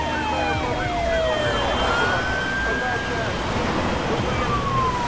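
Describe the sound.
Sirens from a column of fire engines with flashing lights driving along a road. Several overlapping wailing tones sweep up and down at once over a dense, steady rumble that stays loud and unbroken throughout.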